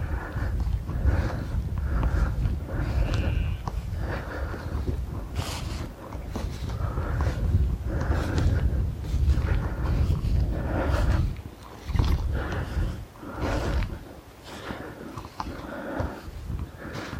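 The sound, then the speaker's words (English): Footsteps walking outdoors off a usual path toward an oak tree, where the ground dips. Many irregular crunching steps follow one another at an uneven pace, some louder than others. “So I'm walking off my usual circular path now and heading towards the oak tree. And just the ground dips here and it's become quieter again.”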